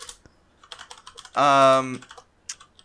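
Computer keyboard typing as a nickname is entered: a few scattered, sharp keystroke clicks, with a brief voiced sound in the middle, then more taps near the end.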